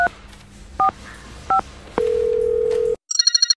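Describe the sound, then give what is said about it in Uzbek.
A telephone call being placed: three short keypad dialing tones, then a long, steady ringback tone, followed by a quick series of rapid pulsing electronic beeps. “Yana bir marta telefon qilib ko'raychi.”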